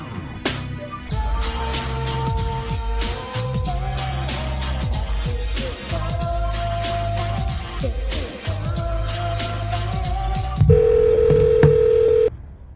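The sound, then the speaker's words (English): Telephone tones sound as a call is dialed: a quick series of short beeps at shifting pitches. A single steady tone follows near the end, then stops. “So we're going to give her a call”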